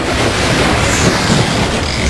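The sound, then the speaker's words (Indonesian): Ocean waves at a beach roar as a dense, steady wash of surf, loud and unbroken, with wind noise blowing across it and no voices. “Asik, akhirnya mandi di pantai juga. Tinggal di gunung, jauh dari pantai, ada burung-burung, ombak bunyi. Ih, enaknya mandi di pantai.”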